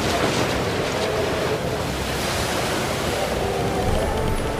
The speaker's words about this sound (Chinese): 耶稣醒了，斥责那狂风大浪，